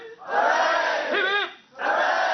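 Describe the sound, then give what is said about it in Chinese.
Cheering erupts from students and staff at a Hong Kong university as they watch a Shenzhou spacecraft launch live. The loud crowd roar comes in two sustained bursts separated by a brief dip, with a raised voice standing out in the middle. “来自香港的载荷专家倪嘉莹正是港大校友，跟随着飞船顺利升空，现场随即传出欢呼和掌声。”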